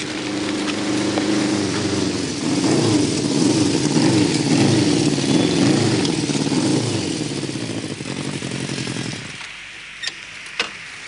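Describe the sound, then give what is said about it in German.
A motorcycle engine rattles and throbs at a steady mid pitch for about nine seconds, then cuts away and leaves a quieter background with a couple of brief clicks. “Kurz nachdem sie sich versteckt haben, rattert Uschis Motorrad heran.”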